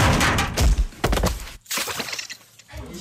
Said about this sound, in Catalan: Un dia, mentre està enfilat a la bastida, el pobre ensopega amb unes fustes i cau d'alta baix. Són 10 metres de caiguda lliure. En Oi? Peter pica amb el cap.